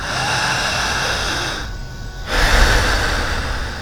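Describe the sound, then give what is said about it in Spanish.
A person breathes deeply through the mouth in two long, loud, rushing breaths, separated by a short pause. “respira muy profundo con la boca. ¿Qué más? Solamente con la boca.”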